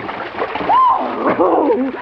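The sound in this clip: Splashing of people jumping into deep water to swim, a steady sloshing wash of water with voices calling out over it.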